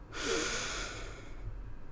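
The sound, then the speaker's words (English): A single deep, drawn-out breath, taken slowly as part of calming breathing in and out, with a soft, rushing airflow that lasts about a second before fading into a quiet background. “Just take a couple deep breaths for me, okay? Good. Let's do it together.”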